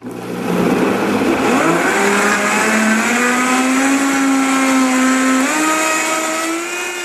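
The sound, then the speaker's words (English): A Vitamix blender whirs loudly as a man makes a green smoothie with spinach and fruit. The motor spins up with a climbing whine, holds a steady high drone, then steps up in pitch once more near the end. “Here's the sound of a man making a green smoothie with spinach and fruit in a Vitamix blender.”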